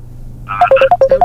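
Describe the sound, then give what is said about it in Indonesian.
A WhatsApp phone call gives out a rapid run of short, bright electronic beeps, evenly spaced, over a low steady hum. “Coba kita angkat yang telepon dari WhatsApp ya.”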